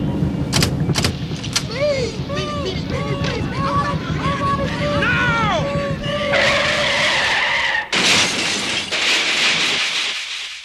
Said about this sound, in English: When I give the signal, toss them out, and I'll drive this heap right through the barrier.